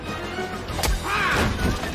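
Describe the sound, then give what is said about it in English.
A ferocious slap lands as one sharp whack, a single abrupt impact that knocks a man to the floor and stands out against a busy, continuous background. “A ferocious slap drives Zed back, and Sargon whacks him to the floor, and raises his sword.”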